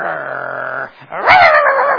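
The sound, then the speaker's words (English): A voice imitates a dog sitting in the corner of a privacy fence: a sustained growl-like drone, a brief pause, then a louder whining, yelping bark with wavering pitch. “That dog likes to come up in the corner of that privacy fence and sit there and go,”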